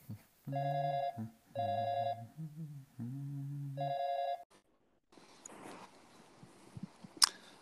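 Telephone ringing while the caller waits for an answer: a few steady, tonal rings with short gaps between them stop abruptly. Faint rustling follows, then a single sharp click near the end.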